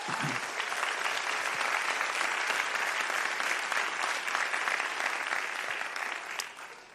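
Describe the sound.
Audience applause welcoming a speaker to the front at a church prayer gathering, dense and sustained for several seconds before tapering off at the end.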